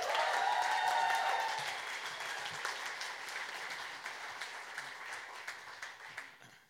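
Applause for a comedian: a lively wave of clapping that is fullest at the start, then eases into a softer, thinning patter before dying away.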